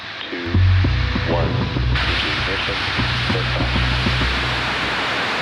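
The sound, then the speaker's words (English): Euclid mission rocket launch in Florida on July 1, 2023: a deep, loud, continuous roaring rumble that holds steady throughout, with a voice briefly heard at the start. “I got to go to Florida to watch a Euclid launch on July 1st, 2023.”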